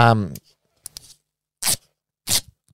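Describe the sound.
Short rasping rips of scotch tape being pulled off a roll. A brief voice and a few faint clicks come first, then two loud, dry bursts of tearing.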